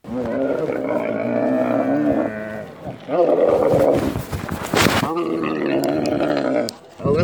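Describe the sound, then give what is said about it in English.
Grunting of Moses, a camel carrying a rider through the desert near the pyramids in Egypt in 40-degree heat: long, low, rumbling growls and groans come in several drawn-out bouts with short gaps. “Well, this is Moses. He's my camel, and he's taken me on a ride through the desert to see the pyramids in temperatures of 40 degrees. Well, camels are really grumpy,”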